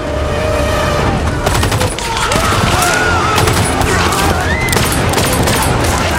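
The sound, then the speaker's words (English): Gunfire from a guard's gun: sharp, rapid shots in dense bursts, clustered mostly after the opening second over a busy background. “A guard fires at Wednesday.”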